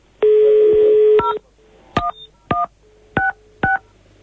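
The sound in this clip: Mobile phone keypad dialing tones: one long tone followed by four short, evenly spaced beeps, each a clear two-pitch electronic tone with no voices.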